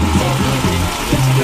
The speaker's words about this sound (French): En marchant, on croise un générateur.